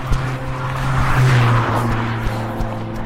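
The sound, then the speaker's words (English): A car drives fast past, its engine a steady roar with a tonal whine that swells to a peak midway and then eases off. “Some people just enjoy driving so fast.”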